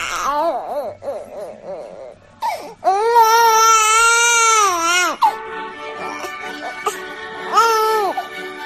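A baby cries through a tantrum in many wailing bursts of uneven length. One long, sustained, high wail rises in the middle, with shorter sobbing cries before and after it.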